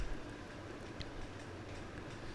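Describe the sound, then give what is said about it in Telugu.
A train departs from a platform, heard as a steady, faint low rumble with one brief click partway through. “తను అక్కడే వదిలేసి రైలు వెళ్ళిపోయింది.”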